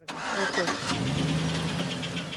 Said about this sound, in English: A sorry parade of banged-up cars idle bumper-to-bumper near a remote border crossing outside El Paso.